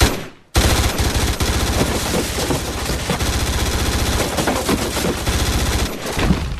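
Rapid automatic gunfire from a weapon being demonstrated. After a brief quiet start, the clatter runs as one loud, continuous burst of densely packed shots for about six seconds, with no talking.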